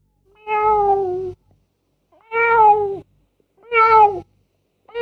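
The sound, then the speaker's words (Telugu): A cat meows three times in clear, tonal cries about a second each, separated by short pauses, with the start of a fourth cut off at the end. The meows are played as a sound-guessing game, and no one talks over them. “Pilli”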